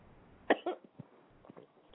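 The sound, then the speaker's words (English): Coughing from a tickle in the throat: one sharp, loud cough followed by a few shorter, weaker coughs and throat sounds, spread unevenly over two seconds with no speech. “excuse me. I've got a tickle in my throat.”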